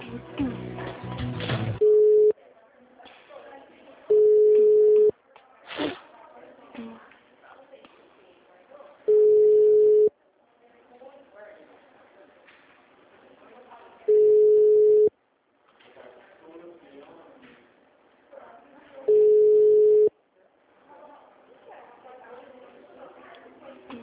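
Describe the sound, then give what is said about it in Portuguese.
Telephone line tones sound while a call to a bank's HR department is transferred: a steady, even-pitched tone repeats five times at regular intervals, with voice sounds in the gaps between. “Deixa eu te transferir com a Elaine, que ela é responsável, então, aqui no RH sobre isso. Só um segundo. Tá bom. Ligação. Você já será atendido.”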